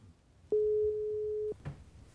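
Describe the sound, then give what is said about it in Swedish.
A telephone ringing tone heard while placing a call: one steady, mid-pitched tone lasting about a second, alone against a low hiss, followed by a faint brief rustle. “Jag tänkte att jag skulle ringa Vera här och se om inte hon kan hjälpa mig.”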